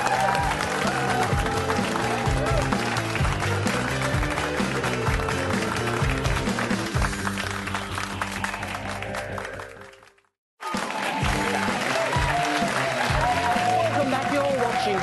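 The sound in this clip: Studio audience applause for a departing contestant on a game show, dense and loud, holding steady before cutting briefly to silence about two-thirds through and then resuming at full strength.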